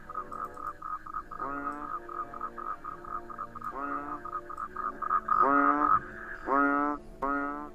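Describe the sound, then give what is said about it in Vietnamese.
Frogs croak at night in many rhythmic, raspy bursts that repeat steadily and grow louder toward the end, with no other sound standing out. “lại thêm luôn cả tiếng ếch nhái cứ ỉ oạp ở xung quanh”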